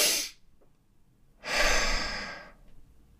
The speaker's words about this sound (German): Doppelatmung oder Double Inhale, wie er das nennt. Und die funktioniert ganz einfach so, dass du voll einatmest und dann, wenn du schon fast voll eingeatmet hast, kurz innehalten und dann nochmal.